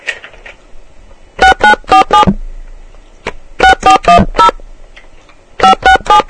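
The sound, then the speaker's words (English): Telephone keypad tones entering a calling card number: three quick runs of sharp electronic beeps, four, then four, then three, separated by short pauses, with one faint single beep between the first two runs. “AT&T, please enter your card number”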